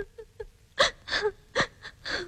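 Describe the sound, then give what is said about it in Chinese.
A girl crying: a few gasping sobs and whimpering wails in short, uneven bursts that grow louder after faint opening breaths. “只问了一句，可就哭起来了。”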